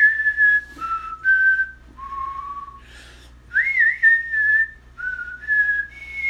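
A person whistles an Old West style tune alone, a short melody of about ten clear, sustained notes that step up and down in a loose rhythm, with brief pauses between phrases.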